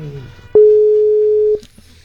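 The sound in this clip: A single steady telephone ring tone while a radio listener is being called, loud and flat in pitch for about a second, just after a brief voice.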